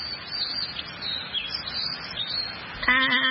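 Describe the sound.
Birds chirp and twitter continuously in a high, busy chorus at moderate loudness, with no talking. A steady tonal sound joins near the end.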